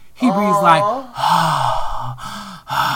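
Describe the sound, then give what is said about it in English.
A voice imitates the heavy, wheezing breathing of a very large man, about 300 pounds, with a voiced gasping inhale followed by a few long, rasping, breathy exhales. “like you literally could hear him breathing when he wasn't talking, right?”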